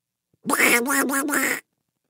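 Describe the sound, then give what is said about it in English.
A farm duck quacks in a quick run of four nasal, raspy calls, loud and alone against silence. “One duck sees the new ducklings.”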